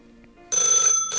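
Telephone ringing with an incoming call: near-silence, then a loud, bright, trilling electronic ring that cuts off briefly and starts again, with no talk.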